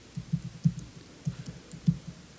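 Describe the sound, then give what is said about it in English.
Fingers type a password on a computer keyboard, several soft, irregular keystroke taps spaced apart, fairly quiet with no talk. “So now I'm going to go over here, and I'm going to SSH into that same box. I can type the password right.”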